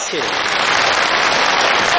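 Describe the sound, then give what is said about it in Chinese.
Audience applause at a Chinese crosstalk comedy show, a loud, dense, continuous wash of clapping lasting the full two seconds. “通过您的掌声跟笑声啊， 啊， 听得出来”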